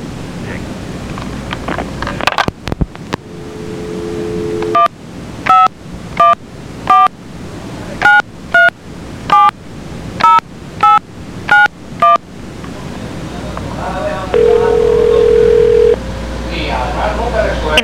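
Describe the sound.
Telephone keypad dialing on a landline: a rapid run of many short, evenly spaced dual-tone beeps between steady tones, one before and a higher one after, with constant background hiss.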